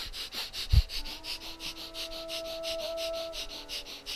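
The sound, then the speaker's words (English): Breath of fire during yoga practice: rapid, rhythmic nasal breathing with many quick, even pumping breaths at a steady pace, soft and faint throughout. “breath of fire.”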